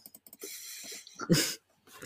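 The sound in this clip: Fingers tap on a computer keyboard with quick, light clicks in short bursts, then one louder clatter of keys and a brief pause before the tapping starts again.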